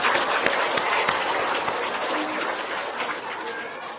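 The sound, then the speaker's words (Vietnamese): An audience applauds the children on International Children's Day. The clapping is dense and steady, loud at first and easing slightly toward the end. “Ồ, cảm ơn các vị, Ngày Quốc tế Thiếu Nhi hoan nghênh cho các cháu.”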